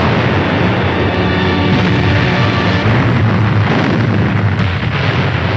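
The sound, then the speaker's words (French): Artillery shells the defences of Stalingrad in a battle, making a loud, dense, continuous rumble of overlapping blasts with no clear gaps between them. “L'artillerie pilonne les défenses de la ville.”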